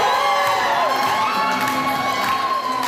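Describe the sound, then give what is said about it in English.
A crowd cheering and whooping for a dozen grandmothers walking a runway in traditional handmade clothing at Winnipeg's AfriFest fashion show, a loud, continuous swell of shouts and high cheers. “What you're hearing is the sound of a dozen grandmothers walking down the runway this weekend dressed in their best traditional handmade clothing.”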